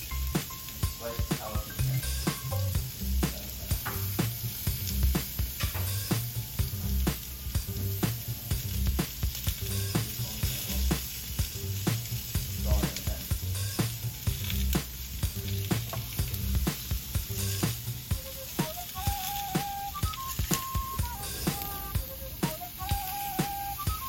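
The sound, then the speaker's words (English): Food sizzles steadily in a frying pan while a steak sandwich is being made. The loud, dense hiss runs unbroken for the whole clip, with faint stirring or clatter now and then. “I'm gonna turn this pan back on here.”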